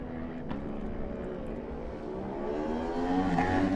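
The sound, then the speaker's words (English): Racing motorcycle engine, an Aprilia, accelerating away from the start of a road race. A steady, loud roar with a strong layered engine note that climbs slightly in pitch and grows a little louder toward the end. “Next away will be Lancelot Unisart on the Obsession Engineering version of the Aprilia.”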